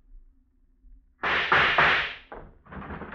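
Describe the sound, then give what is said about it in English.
Gunfire in an old radio drama: a few loud, harsh bursts with rough, noisy decays, following a quiet stretch. “I heard the shot.”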